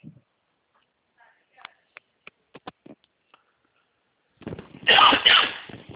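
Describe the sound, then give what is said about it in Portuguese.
A forceful, harsh cough from someone with a cold bursts out near the end, after a few faint scattered clicks and a near-silent pause. “Desculpa as tosses aqui que eu tô no resfriado bom.”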